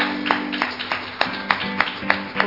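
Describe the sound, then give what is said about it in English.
A church audience claps in praise during a worship service. Steady rhythmic hand claps keep an even beat over a low musical backdrop. “Let's give Him another hand clap of praise.”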